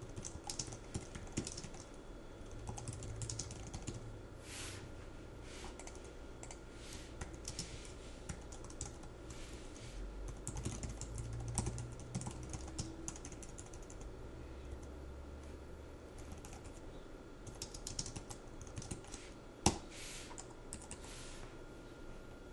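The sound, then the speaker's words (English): Steady, faint typing on a computer keyboard, with soft key clicks running continuously throughout and a single sharper tap standing out near the end. “Let me type here for a minute.”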